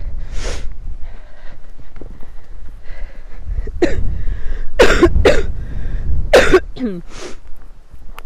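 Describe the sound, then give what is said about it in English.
Coughing from a rider on horseback: several sharp, loud bursts scattered across the stretch, some in quick pairs, mixed with throat-clearing and sniffing sounds. “I'm trying not to cough into your ear, I'm sorry.”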